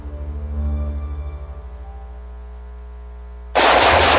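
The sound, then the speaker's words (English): Automatic gunfire erupts in one loud, sustained burst near the end, following a quieter stretch of low, droning tones. “Woo. Nice shooting.”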